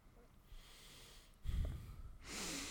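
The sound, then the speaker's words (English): A deep breath drawn in noisy, airy bursts, a short snort-like rush followed by a longer, breathy exhale, fairly faint and with no talking. “You see, I breathe deep. Oh, I'm glad you caught that shit.”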